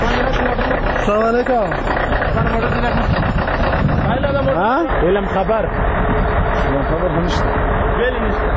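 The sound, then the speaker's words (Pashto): Cargo truck engines in Paktia idling and revving, a loud, continuous diesel rumble with knocking, while voices talk over it at points. “راپور د بارونکو موټرو په ژغ پیلېږي.”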